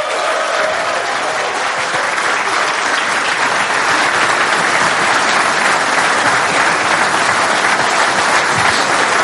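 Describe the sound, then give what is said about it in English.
Audience applause welcoming John Giles to the stage at a tribute event for Irish football: loud, dense clapping sustained at an even level for about nine seconds. “But please, let's welcome to the stage and give it up for the great John Giles.”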